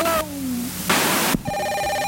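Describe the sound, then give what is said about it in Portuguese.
A telephone ring with a dated, intercom-like quality, like a 1970s intercom: short electronic tones with a gliding note, a harsh buzzy burst, then a steady ringing tone, heard alone. “Pô, parece. Isso aí é um interfone nos anos 70.”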